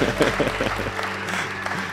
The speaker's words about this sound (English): Can you give her a massive hand this morning?